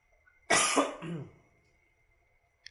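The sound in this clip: One harsh, loud cough from a person with a lingering illness bursts out of quiet and trails off within about a second.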